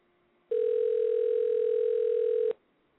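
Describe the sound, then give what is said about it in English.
A telephone dial tone sounds while a call is being placed: one steady, unbroken electronic tone that starts abruptly, holds at a constant pitch and level for about two seconds, then cuts off, with no other sound around it. “We dialing Bianca right now.”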